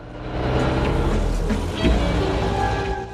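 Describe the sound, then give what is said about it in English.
A motorcycle engine revs hard as the rider opens the throttle toward 5,000 RPM, a loud, sustained, buzzing drone with strong engine harmonics. “He gives the throttle a fistful and the rev counter surges up to 5,000 RPM.”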